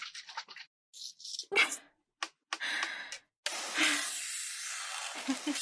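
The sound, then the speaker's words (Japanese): Well-shaken juice sprays out with a hiss onto a frozen iron plate. A few short sputtering bursts give way to a steady, fairly loud hiss that runs to the end. “よく振ったからプシューってすごい勢いで出たね。”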